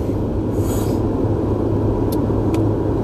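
A car is being driven, giving a steady, even rumble of road and engine noise with a broad hiss on top. A couple of faint high ticks come through near the end, and no one speaks.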